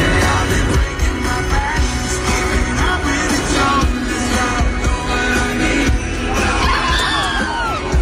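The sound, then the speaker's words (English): Loud concert crowd screaming, cheering and whooping as Post Malone falls off the stage, a dense, continuous roar of many voices with a few sharper shouts rising above it. “What you just heard was Post Malone falling off the stage last night.”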